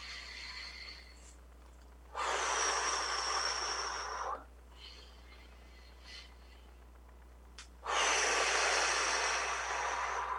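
Two long inhaled breaths taken during a guided breathing exercise, each a soft, airy hiss lasting about two seconds, separated by a quiet pause.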